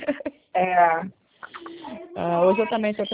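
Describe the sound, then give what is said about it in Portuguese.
A pet cockatiel sings at home, giving a few loud, warbling, tonal phrases with shifting pitch, separated by short pauses. “Tem o meu cantorzinho aqui, o meu calopsita aqui cantando a beça, né?”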